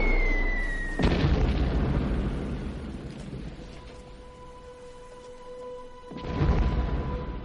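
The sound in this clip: A failed test launch of a rocket weapon prototype ends in an explosion: a sudden loud boom, then a long, low rumbling roar that fades and swells into a second burst near the end.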